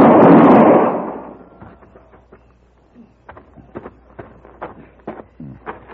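A single loud gunshot during a Western showdown: a sharp blast that decays over about a second, followed by a sparse run of soft clicks and light thuds.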